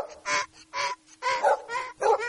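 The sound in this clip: A dog barks in a quick series of short, tonal, honk-like yelps with clear pauses between them, moderately loud and heard alone with no voices.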